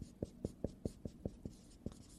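Handwriting with a pen on paper, about eight faint, evenly spaced scratchy strokes in a steady rhythm, quiet and without talk.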